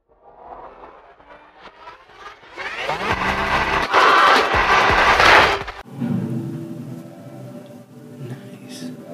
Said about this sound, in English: So let's start with a alright trailer for the new Far Cry.